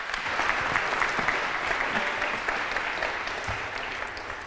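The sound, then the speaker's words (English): Sustained audience applause welcomes a woman joining her husband on stage at a talk about marriage: a dense, steady patter of many clapping hands throughout, easing slightly toward the end. “would you give a warm welcome to my wife, Michelle, as she comes up and joins me.”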